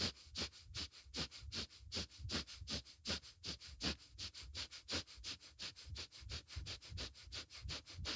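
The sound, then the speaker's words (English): Rapid, forceful nasal breathing during a breath-of-fire yoga exercise, a long run of sharp sniff-like pulses in a fast, even rhythm, heard alone without talk. “Inhale out, exhale in, inhale out, exhale in. Breath of fire.”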